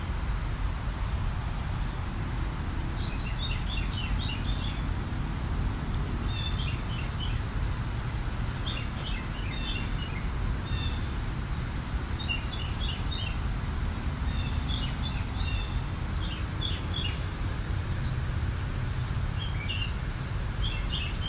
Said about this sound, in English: This is a lot quieter than a Carolina wren usually is. They can really project. This means this bird's practicing. Most likely a male.